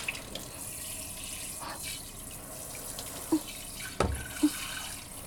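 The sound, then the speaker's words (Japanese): Water runs and sloshes softly at a sink as rice bowls are rinsed, a faint, steady wash broken by a few brief splashes near the end, with no talk. “ザブザブザブザブ、すすいで、すすいで、”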